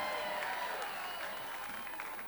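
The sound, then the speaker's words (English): Faint audience applause for a popcorn stand, a steady wash of clapping that holds for the whole clip. “John would like a personal round of applause for the popcorn stand, his favorite.”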